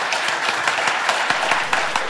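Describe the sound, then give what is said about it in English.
Audience applause for a panel at a live industry event in London: dense, even clapping from many hands, sustained steadily throughout with no voices. “I would like you all to give a big round of applause to my panel, who have been fantastic.”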